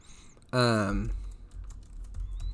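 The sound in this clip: Keys on a computer keyboard clicking lightly while someone searches online, a few quick taps following a brief vocal sound at the start.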